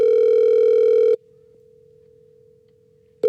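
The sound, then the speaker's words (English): Telephone line tone as a call is placed to a prize winner: a loud steady buzzing tone for about a second, then a much quieter continuous tone, before the loud tone cuts back in at the very end. “Okay, let's dial and hope they pick up.”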